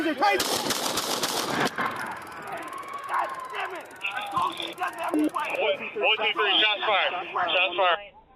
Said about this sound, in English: One, two, three, shots fired.